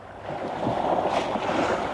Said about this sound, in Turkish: Su üzerinize böyle sıçrarken bu ürkütücü.